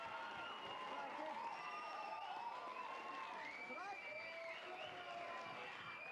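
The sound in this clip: Applause and cheering from a live studio audience: dense, steady clapping with crowd voices mixed in, holding at an even level throughout.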